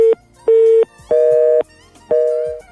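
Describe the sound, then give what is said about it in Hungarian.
A telephone busy tone sounds after a call to a phone-in show disconnects: loud, steady mid-pitched beeps repeat in an even on-off rhythm, four of them in quick succession. “Megszakadt a kapcsolat, de bátorítjuk, hogy próbálkozzon újra.”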